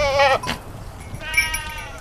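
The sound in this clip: A herd of goats kept for wildfire prevention in Portugal bleats in two distinct nasal, quavering calls: a short one at the start, then a longer one after a pause.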